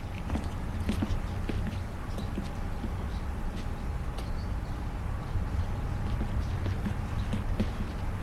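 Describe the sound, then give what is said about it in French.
Footsteps in a street: many faint, soft, regular steps tapping along over a low, steady background rumble, with no talk. “Des pas dans la rue.”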